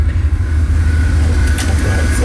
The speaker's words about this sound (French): Là, c'est quoi? C'est la salle des machines.